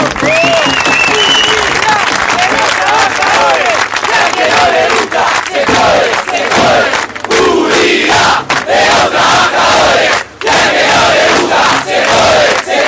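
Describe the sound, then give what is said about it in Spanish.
A crowd at a gathering applauds with dense, continuous clapping, mixed with loud cheering and shouting voices. The sound stays loud and steady throughout. “Por eso también quiero pedir un aplauso grande para todos ustedes que están acá presentes.”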